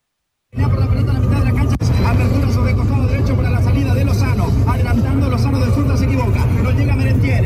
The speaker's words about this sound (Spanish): Ahí está el bus. Viendo. Ahí está el bus. Yo creo que ese es el bus. Tiene audio.